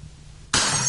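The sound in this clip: A drinking glass is knocked over and shatters: a sudden loud crash of breaking glass arrives about halfway through after a quiet low hum, and the bright splintering noise rings on to the end.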